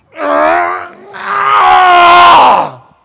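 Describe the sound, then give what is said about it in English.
A voice imitates the strained groan of a weightlifter hoisting a huge weight: two loud, drawn-out, throaty groans, a shorter one followed by a longer, sustained one that tails off. “that's the sound that is given when that weightlifter bends over and I can't do it, I can't even pick up weight anymore, but picks up that huge amount of weight and goes,”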